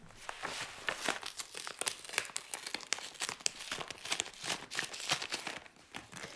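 Thick paper crackles and rustles as a bulky paper case file is opened, a steady run of many crisp crinkles and tearing-like crackles at low volume with no talking.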